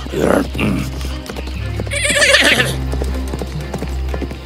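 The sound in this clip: A horse galloping through a forest, its hooves clip-clopping steadily, with a loud, high whinny partway through. The horse sounds continue over a low, constant rumble.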